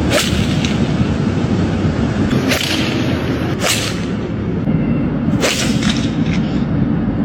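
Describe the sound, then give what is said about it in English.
Golf balls struck by clubs, heard as several sharp, whip-like cracks spaced a second or more apart over a steady background rumble. “It's the sound of guys hitting golf balls.”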